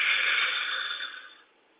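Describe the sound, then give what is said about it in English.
A long, deep exhale during a guided breathing exercise: a steady, breathy rush that slowly fades away over less than two seconds. “So we breathe in. And we breathe out. Breathe in once more.”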